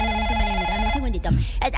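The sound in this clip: A telephone rings with an incoming call: a bright, wavering electronic ringtone melody plays for about a second, then breaks off into a voice.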